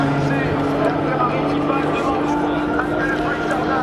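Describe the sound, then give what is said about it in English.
Steady, loud engine drone from a Cadillac race car at the Le Mans endurance race, a constant droning hum that holds throughout while a voice talks over it. “As the Cadillac goes by, an LMP2, a Richard Mille Ferrari, another Ferrari 296.”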